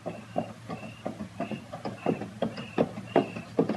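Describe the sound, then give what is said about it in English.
Steady clip-clop of hooves from a horse being led with a body tied across its saddle, many evenly spaced hoof strikes in a regular walking rhythm. “Not a pack horse. There's a body tied across the saddle, and that's Andy leading it.”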